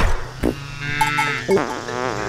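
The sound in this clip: A cow fart sound effect: loud, raspy, buzzing blasts that sputter on for about two seconds, with a few sharper bursts along the way.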